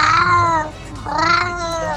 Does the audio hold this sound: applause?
no